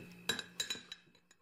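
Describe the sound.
Dishes and cutlery are laid as the table is set for lunch, with a few faint, light clinks and taps that thin out toward the end.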